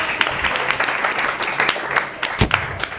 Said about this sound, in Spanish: ¡Bravo! ¡Aplausos!